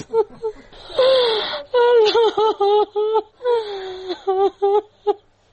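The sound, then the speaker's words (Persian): A grieving mother's wailing cry for her two daughters killed in a car bombing in western Kabul: loud, high, quavering vocal cries, drawn out at first, then broken into short sobbing bursts with gasping breaks. “این صدای گریه مادر نگینه و زحل، دو دختری که هفته گذشته در انفجار موتر بمبگذاری شده در غرب شهر کابل جان باختند.”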